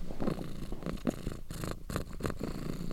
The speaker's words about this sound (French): il faut que j'enregistre le chat, excuse-moi.